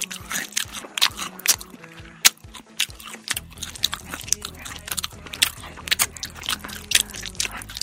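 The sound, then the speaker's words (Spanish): Crunching bites into a Super Crunch chocolate bar with four layers of chocolate, almonds and hazelnuts: many sharp, crisp cracks and chewing crunches in an uneven rhythm, with no talk. “el chocolate super crunch. ¿Te puedes resistir? Extremadamente delicioso, con 4 capas de chocolate. Hoy el sonido crunch.”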